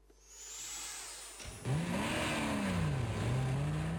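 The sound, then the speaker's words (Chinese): Engine roar of a jeep speeding out of a parking lot, starting as a lower rumble, then surging loudly at about the midpoint into a strong revving tone whose pitch wavers up and down as it accelerates. “吉普车风驰电掣般冲出了停车场，早来的工人们慌乱地躲闪开”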